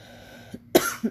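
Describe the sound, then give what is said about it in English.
A person coughing, a former smoker's lingering cough: a faint catch, then a loud harsh burst and a shorter cough close after, with quiet in between. “So, if you're sitting here listening to this podcast and you're wondering about that continuous cough,”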